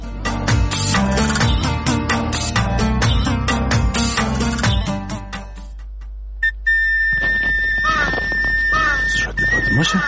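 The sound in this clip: A shrill whistle sounds in the second half with steady high tones after a stretch of rhythmic music that stops abruptly.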